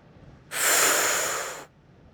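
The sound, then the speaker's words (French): One strong breath blown hard across hot water to cool it: an abrupt, airy rush lasting about a second that eases slightly before cutting off, alone and fairly quiet. “Souffle avec force sur l'eau pour la refroidir.”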